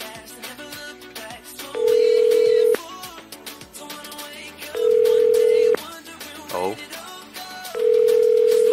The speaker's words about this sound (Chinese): 让我们来听听啊，室内电话就没有语音了